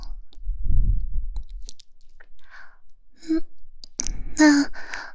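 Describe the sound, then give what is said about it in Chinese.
Someone chews a bite of sandwich with bacon and cheese. A short crunchy burst is followed by soft mouth clicks and smacks, then a brief voiced hum near the end. “里面啊可是加了培根和芝士呢。吃一口，嗯，再吃一口试试嘛。”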